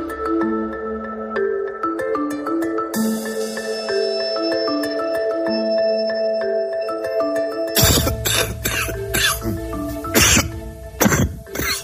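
People coughing from the flu: a run of harsh, rapid coughs breaks in near the end, over music with sustained tones that plays throughout.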